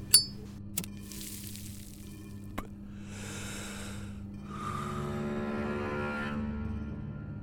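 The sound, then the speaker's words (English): Three sharp, separate knocks of a knife striking a wood block during cooking, spaced unevenly, followed by a soft, steady hissing noise with no voices. “And then you hear the sound of what sounds like a knife on a wood block.”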